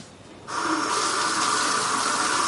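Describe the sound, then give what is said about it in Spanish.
A bathroom tap is turned on for washing the face, and water gushes into the sink after half a second of quiet, then runs in a steady, loud stream to the end. “Se lava la cara en el cuarto de baño.”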